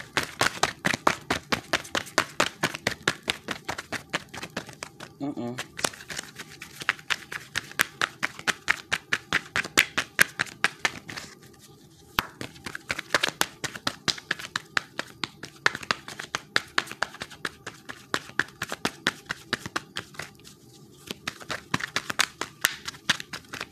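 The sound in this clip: A deck of cards is shuffled over and over: many quick bursts of rapid flapping clicks, with short pauses between rounds and a few longer breaks.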